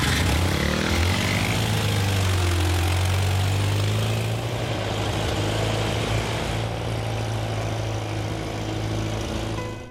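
Car engine running as the vehicle pulls away, a loud, steady low drone that holds through the whole clip without pause.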